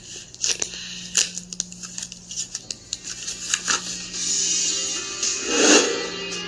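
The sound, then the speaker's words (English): A paper envelope holding test results is opened by hand. Many small, crisp paper clicks and crinkles come first, then a longer, fuller tearing rustle near the end. “Do you want to do the opening of the envelope? Yeah. I can open it.”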